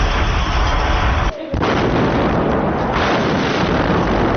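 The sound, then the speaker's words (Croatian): Heavy artillery fire from guns massed around Sarajevo at the start of the siege makes a loud, dense, continuous rumble of booms. A brief lull interrupts the barrage early on. “Uveliko se oko Sarajeva razmješta teška artiljerija. Zauzimaju prostor i općina na koje, kako su vjerovali Srbi, polažu pravo. Počinje opsada grada.”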